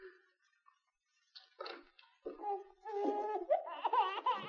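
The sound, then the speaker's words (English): A newborn baby's plaintive, muffled wail comes as a few broken, wavering cries. They grow louder and more continuous toward the end, with no talking. “Suddenly, Walt stopped as he heard a plaintive, muffled wail.”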